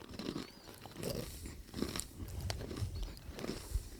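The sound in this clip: Crunching of honey-coated salted nuts being chewed: many quiet, irregular crisp bites and grinding crunches, with no talk.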